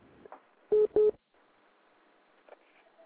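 Two short phone keypad tones from buttons pressed by mistake during a call, quick back-to-back beeps over a faint, crackly line.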